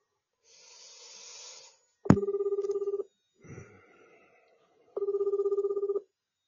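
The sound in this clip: Ringback tone from a telephone call to a customer service center. A click starts the first steady ring burst of about a second, and a second identical burst follows after a pause. A soft hiss and brief rustle come before and between the bursts.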